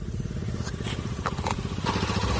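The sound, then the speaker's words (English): A motorbike used as an Okada commercial motorcycle taxi runs with a loud, steady engine rumble and a fast, even pulsing throughout. “Alex now depends on a motorbike donated to him to work as an Okada rider.”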